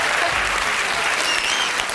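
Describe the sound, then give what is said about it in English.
Dense, loud applause from a crowd, continuous clapping that holds an even level from start to finish. “applause after every word I say.”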